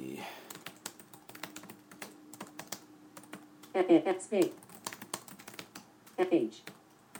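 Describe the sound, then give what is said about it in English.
Typing on a computer keyboard while entering sentences line by line: many quick, irregular keystroke clicks run throughout, with a voice briefly speaking over them. “So I'll do three finger single tap to switch to text mode. And let me type some sentences, each one on its own line.”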